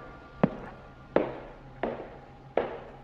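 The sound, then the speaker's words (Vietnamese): Dry footsteps sound in a quiet space: four sharp, evenly spaced steps at a slow, steady pace, each with a short fading tail, and no voices. “Quả thật là tiếng bước chân vang lên. Trong không gian yên tĩnh, tiếng bước chân khô khốc ấy đến rợn cả người.”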